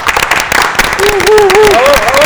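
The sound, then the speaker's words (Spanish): Audience applause for a group of invited guests: a dense, crackling wash of clapping throughout, with a sung melody gliding in over it halfway through. “Pues un aplauso para ellos, venga.”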